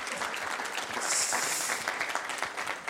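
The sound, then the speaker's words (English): A church audience claps to welcome a speaker to the front, a dense, steady burst of applause that swells slightly in the middle. “I wonder if you'd put your hands together and welcome Josh as he comes to speak to us.”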